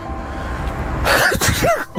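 A person sneezes once after glancing at the sun during a solar eclipse, a sudden sharp burst breaking in halfway through after a quieter stretch of background sound.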